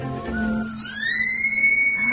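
A sloth's mating call in a forest: a high, thin, whistling tone that glides upward and then holds steady, sounding alone and clearly, with no talk.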